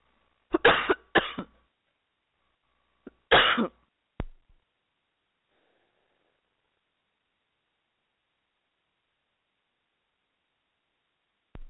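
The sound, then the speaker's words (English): A sudden coughing fit: a few harsh, throaty bursts clustered at the start, a couple more shortly after, and a final one at the end, separated by silence. “I got a cough, and it just came on me. So I apologize if you heard that in volume.”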